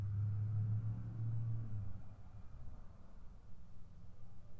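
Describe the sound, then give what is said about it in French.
Distant city traffic forms a faint, low rumble, with a louder vehicle hum in the first two seconds that fades into the softer, uneven background wash. “Mouvement de la ville.”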